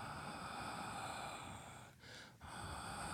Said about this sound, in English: Just breathe into the feeling, wherever it is, whatever it is, and a gentle wind sound on the exhale.